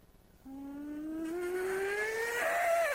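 A Kia car engine revs in neutral toward 6,000 RPM, a steady whining tone that climbs slowly in pitch and grows louder, then drops off sharply just before the end.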